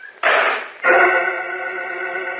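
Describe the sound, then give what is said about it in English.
A metal machine door clangs shut in a radio drama sound effect: two heavy metallic impacts, the second followed by a loud, sustained ringing resonance. “The metal door to the machine clangs shut on Jim Olsen and Professor Fields.”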